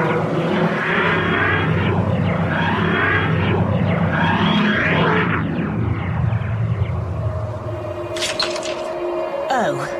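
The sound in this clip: A flying craft comes in to land halfway up a mountain, its engine a loud, dense rumbling roar that thins out toward the end, where a brief high whine sweeps through.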